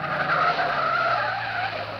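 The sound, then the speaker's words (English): Tires squeal as a car skids to a stop ahead during a pursuit, a continuous two-second screech at a steady pitch that eases slightly toward the end. “Well, he stopped his car up ahead.”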